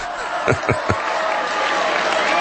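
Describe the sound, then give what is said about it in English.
A crowd applauding at a Trump rally at CPAC: dense, steady clapping with a few low thumps near the start. “That's everybody applauding the fact he says, don't worry about it. You're going to get a wall.”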